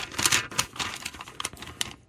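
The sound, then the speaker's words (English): A padded envelope with firm contents is torn and opened in a series of crisp tearing and crinkling bursts of paper, fairly quiet and uneven, with no talk. “More of a firm filling in the envelope, which I know you like. So, so I open it up.”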